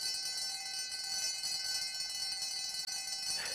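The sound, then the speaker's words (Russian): An electric school bell rings at the end of a long break, a continuous shrill buzzing ring held steadily for over three seconds, fairly faint, with no voices. “Звонок. Все на свете кончается, даже большая перемена.”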